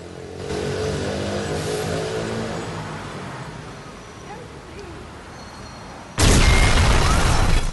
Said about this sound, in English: A thick cloud of smoke spews out from the coffee bar he's just left, the force of the blast blowing him off balance.